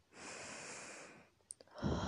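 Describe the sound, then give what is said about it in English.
A slow, steady breath drawn in through the mouth as part of a relaxing breathing exercise, a soft airy hiss lasting about a second, quiet and alone, followed by a brief click and another faint breathy rush. “Breathe in”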